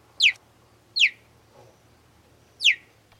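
Cheetah chirps: three short, high-pitched, bird-like calls, each sweeping sharply downward, spaced unevenly over a faint low hum.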